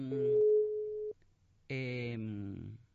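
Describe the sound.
A steady single-pitch telephone tone sounds for about a second after a call cuts out and is redialled, then after a short gap a voice briefly comes through the line.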